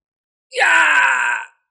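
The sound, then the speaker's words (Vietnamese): A miserable, shrieking human cry: one loud, drawn-out wail lasting about a second, rising sharply out of silence and then cutting off, heard entirely on its own. “Đột nhiên một tiếng kêu thảm thiết, thê lương phá vỡ sự yên lặng”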